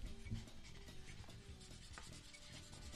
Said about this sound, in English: While they're writing, I just want to take a quick second here to...